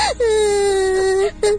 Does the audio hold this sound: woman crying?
yes